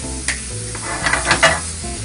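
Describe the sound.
Sizzling and stirring as two eggs are scrambled in a pan, with a few scraping clicks of a utensil over a steady low hum.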